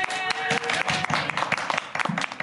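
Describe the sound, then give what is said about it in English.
Audience applause at a bookstore panel discussion, a dense, continuous patter of many hands clapping at an even level throughout. “So ladies and gentlemen, please give a round of applause for Mark Morrell, Brian Smith, and Jacob Shabbat.”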